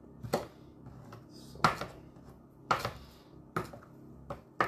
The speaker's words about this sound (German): die ganzen Blätter zusammenraffen und dann einfach mit dem Messer klein hacken. Also was heißt hacken? Immer Schneidebewegungen machen.